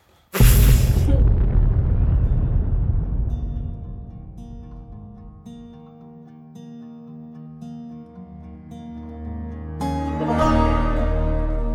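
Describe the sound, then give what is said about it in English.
Mortar shells explode after being fired: a sudden loud, crackling blast at the start, followed by a deep rumble that slowly fades beneath steady low tones, with another noisy burst swelling near the end. “So maybe before Josiah Byrne just shoots all the mortars.”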